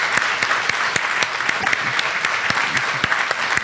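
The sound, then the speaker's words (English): Applause from an audience at a gathering, thanking the event's organizers: a steady, dense stream of many hand claps at even loudness throughout, with no voices. “a big round of applause for Kim and Rachel”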